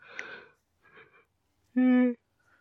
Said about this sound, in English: That was a big yawn.